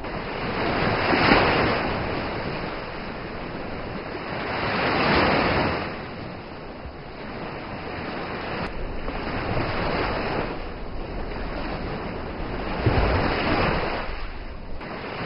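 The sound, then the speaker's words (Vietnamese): Waves crash hard against the shore as the sea rises, a continuous roar of surf that swells in a few broad surges. “Tai chợt vang lên tiếng sóng đánh mạnh vào bờ.”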